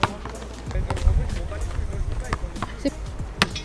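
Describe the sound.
A basketball bounces near a basketball hoop, giving a few dull thuds with one heavier impact, while people talk throughout.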